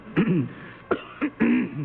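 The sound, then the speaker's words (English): Coughing and throat clearing from a speaker at a World Health Organization meeting come in a few short, hoarse bursts, with a longer rasping cough near the end, alone and moderately loud. “And there was one moment of levity at the WHO meeting Monday when Dr. Tedros got a bit of a coughing spell.”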